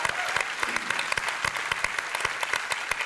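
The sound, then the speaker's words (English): A church audience applauds during a service welcome at Lake Hills Church, downtown at Brazos Hall: dense, loud, continuous clapping with sharp claps standing out, steady for the whole stretch. “And I want us to put our hands together and give a crazy welcome into our service, Lake Hills Church, downtown at Brazos Hall.”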